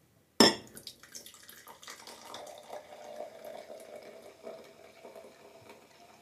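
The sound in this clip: Sekt, a sparkling wine, poured into a glass. It begins with a sharp, abrupt hit, then a steady, faint fizzing and splashing pour with small bubbling ticks that carries on to the end.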